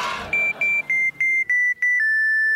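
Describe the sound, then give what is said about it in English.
Electronic beeping of the Adventure Cateers distress call signal: six short, evenly spaced high beeps, each a little lower in pitch, run straight into a longer steady tone at the end. “Leaping laser beams. That is what I think it is. The Adventure Cateer distress call broadcasting on a frequency only I can hear.”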